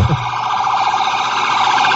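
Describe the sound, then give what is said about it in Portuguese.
Sirens from police cars passing through Praça 7 in heavy traffic, a loud, continuous wailing tone with a low rumble underneath, sounding alone. “uma grande quantidade de carros da polícia passam neste momento na Praça 7 e deixa o trânsito complicado”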